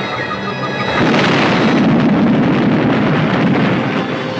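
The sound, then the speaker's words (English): Two robots exploding: a loud, roaring blast of dense noise that swells after a moment and holds, rumbling and hissing, until the end with no pauses. “When the two robots exploded, the computer started speeding up like crazy.”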